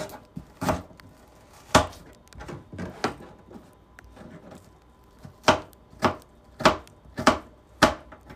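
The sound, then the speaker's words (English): A knife chopping onion into small pieces for juice, heard alone as several sharp, irregular strikes separated by short quiet gaps, growing more frequent toward the end. “This is exactly how you make onion juice. I think I made it before. I'm using small pieces of onion, not a big piece.”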